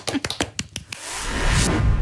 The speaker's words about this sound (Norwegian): Prøv det i dag. Klapp. Klapp for deg selv.